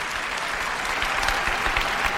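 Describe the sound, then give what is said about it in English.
An audience at a product launch claps and cheers as a revolutionary mobile phone is announced, a dense and steady wash of applause that stays loud for the whole stretch. “That's the cheering.”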